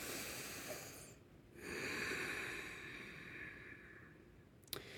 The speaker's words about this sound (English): let's all take a big, deep breath together.